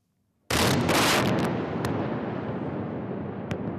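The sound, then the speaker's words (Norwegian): Rocket strikes explode at night in Gaza: after a short silence a sudden, loud blast breaks out, followed by a long rumbling decay with a few sharp cracks. “Det er mørkt i Gaza, men plutselig lyser himmelen opp. Israel sender nye raketter inn over det lille landområdet.”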